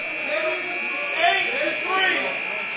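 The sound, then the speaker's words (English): A continuous high electronic alarm tone sounds in a housing unit at San Quentin prison after an officer triggers it. It holds steady throughout while people talk over it. “an officer somewhere in San Quentin has triggered the alarm”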